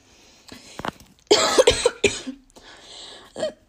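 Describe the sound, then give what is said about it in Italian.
Harsh coughing fit from someone choking: a cluster of rough, closely spaced bursts in the middle, with softer throat-clearing and breathy sounds before and after. “Scusate, mi stavo soffocando.”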